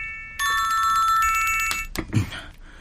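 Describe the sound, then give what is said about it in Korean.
A mobile phone ringtone: a bright, electronic repeating melody plays loudly for about a second and a half, then stops, followed by a few short, scattered noises. “이거 비의 핸드폰인 것 같은데?”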